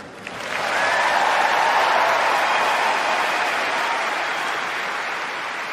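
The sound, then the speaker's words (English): Crowd cheering and applauding at a tennis court, greeting honoured guests in the royal box. The dense, loud clapping and cheering swells within the first second, then holds steady, fading only slightly toward the end. “cheers grew louder as the camera zoomed in on Dame Sarah Gilbert”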